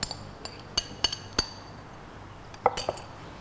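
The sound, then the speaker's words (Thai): Metal utensils clink against a pot as mixed minced pork is added to boiling soy milk. Several sharp, bright clinks come at irregular intervals, with a quieter pause in the middle before a final cluster. “อันนี้น้ำเต้าหู้เราเริ่มเดือดแล้วนะเราก็ใส่หมูที่เราผสมไปแล้วนะคะลงไปได้เลย”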